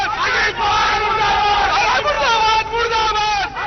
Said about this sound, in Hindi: राष्ट्रवादी Congress party के कार्यकर्ताओं ने अजीत पवार के विरोध में और शरद पवार के पक्ष में नारे लगाए।